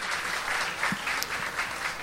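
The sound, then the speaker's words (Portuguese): Audience applause for a guest, a SESC and SESI director from Bahia, at a choro music event: dense, steady clapping with no voices, lasting about two seconds. “para quem eu peço uma salva de palmas”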